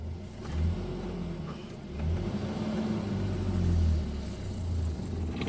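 A car engine rumbles and revs as the car pulls away from a stop in third gear on a road heading up a hill. The deep, labouring drone swells in a few surges.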